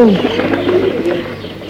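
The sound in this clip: Pigeons cooing: soft, low burbling coos that overlap through the short stretch at moderate loudness.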